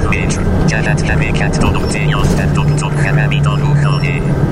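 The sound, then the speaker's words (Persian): Inside a moving bus, a steady engine drone and low road rumble run without pause, with people talking over the continuous noise. “الان تو اتوبوس”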